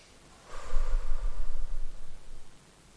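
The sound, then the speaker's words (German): A single slow, drawn-out breath during a calming breathing exercise, lasting about two seconds, soft and airy with no voices. “Und die Luft strömt aus und ist eigentlich bei 5 oder 6 Zählzeiten schon raus.”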